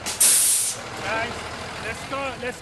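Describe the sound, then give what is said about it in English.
School bus air brakes let out one short, loud, sharp hiss on a chilly winter evening, followed by people talking. “ushers people from all over the world onto a school bus”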